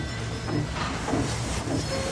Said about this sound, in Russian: Поезд трогается.